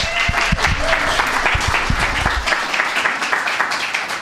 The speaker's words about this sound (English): Wow, somebody said woo.